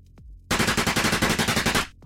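Gunfire sound effect in an action-thriller audio drama, with hooded thugs shooting from behind an overturned conference table: a sudden, loud burst of rapid, evenly paced automatic shots that lasts about a second and a half and then cuts off.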